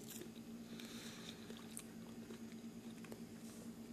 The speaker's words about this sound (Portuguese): Que nada como tirar o estresse comendo uma goiaba, né?